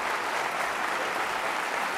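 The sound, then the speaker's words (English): Applause from an audience welcoming a lecturer at Cornell: dense, steady clapping that holds at an even level throughout. “Please join me in giving him a rousing Cornell welcome.”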